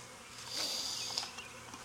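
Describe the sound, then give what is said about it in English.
Honeybees buzz inside a hive that holds a swarm settled there a few weeks earlier. The hum is steady and dense and carries on without a break. No voices are heard. “just in the few weeks I've had this swarm on here, is a much more impressive hive than that bottom one.”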